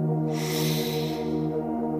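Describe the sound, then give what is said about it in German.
A deep breath drawn in during a guided relaxation, a soft airy hiss swelling over the first second and fading, set against a steady sustained musical drone. “Atme tief ein”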